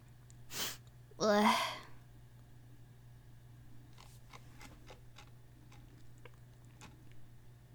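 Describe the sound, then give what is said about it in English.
A single sneeze: a short sharp intake, then a loud explosive burst. Afterward come quiet, scattered ticking clicks over a low steady hum. “Sneeze.”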